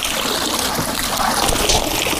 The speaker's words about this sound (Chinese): 依家呢，我哋就捞啲苗出嚟。